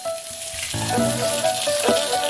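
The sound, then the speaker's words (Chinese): Bullfrog pieces deep-fry in very hot oil for a quick half-minute fry, giving a dense, steady crackling sizzle throughout with a few louder bubbling surges and no voices. “油温7-8成。 牛蛙速炸30秒就能出锅。”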